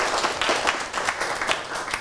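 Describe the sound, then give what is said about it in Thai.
Students in a classroom clapping for a classmate, a short burst of uneven hand claps with individual slaps popping out of a busy, moderately loud patter. “ปรบมือให้เพื่อนด้วยครับ”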